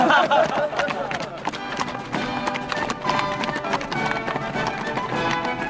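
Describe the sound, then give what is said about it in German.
Two horses carry their riders out of a fortress, hooves clip-clopping in a steady, rapid stream of beats throughout. “erhielt zwei neue Pferde und ritt mit seinem Herzbruder freudevoll zur Festung hinaus.”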